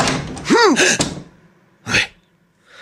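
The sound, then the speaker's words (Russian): A door handle being pulled and tried on a door: a short creaking squeal, then two dull thunks separated by a brief pause. Quiet stretches lie between them. “Взялся за ручку. Тянет. Пробует. Рассчитывал, что у меня не заперто. Значит, знал, что я иногда запереть забываю. Опять за ручку тянет.”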